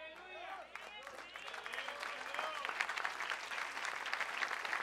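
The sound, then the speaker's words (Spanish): An audience at a sermon breaks into applause while a man is still talking. The clapping starts faint and swells into a steady, dense patter. It stays fairly quiet overall and grows stronger toward the end. “No aplaudan ahora porque la que viene es dura.”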